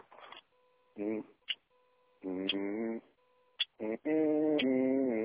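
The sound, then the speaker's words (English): A short electronic tune plays over a phone voicemail: bursts of steady, buzzy beeping tones separated by brief pauses. “Let me start it off with a little music.”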